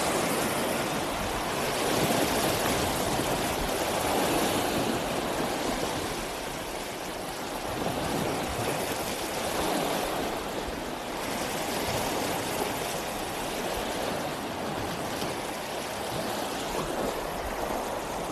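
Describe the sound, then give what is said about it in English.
Water flows steadily at a lake as a dense, continuous rushing hiss with a low rumble. The level swells gently, and no other distinct sounds stand out. “But here you go, another little taste of the sounds of the lake.”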